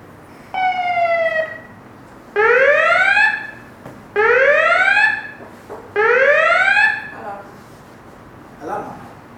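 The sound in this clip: An emergency alarm siren, like those in films during an epidemic, sounds one steady tone and then three loud rising wails with bright harmonics. A faint short burst follows at the end.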